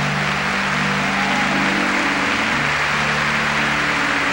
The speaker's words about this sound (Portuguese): Está chovendo aqui em Cachoeira Paulista e com muitos raios